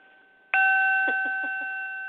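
A bell is struck once and rings out with a bright, steady tone that hangs and fades slowly over about a second and a half, heard alone at the start of an evening show.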